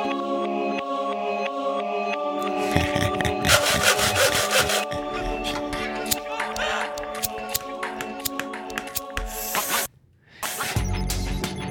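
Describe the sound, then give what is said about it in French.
Wood being sawn in a carpentry workshop: steady rasping strokes layered over a dense, busy texture that runs almost without pause, with a brief drop-out just before the end. “Mais la menuiserie, cette entité démoniaque, créatrice de sons, était toujours en activité.”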